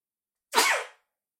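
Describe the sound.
A single sharp sneeze bursts out loud and brief, a short breathy blast that fades quickly, with nothing else heard around it.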